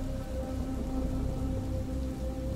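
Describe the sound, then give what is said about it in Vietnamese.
Heavy rain pours down in a dense, even hiss that stays steady and constant in loudness throughout, alone with no voices. “Tiếng mưa ngày càng lớn dần, lấn át đi tiếng la hét của bà Bích.”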